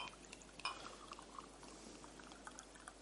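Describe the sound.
Liquid is poured into a glass while someone fills it not quite to the top: a soft, steady trickle with a brief clink near the start, faint throughout.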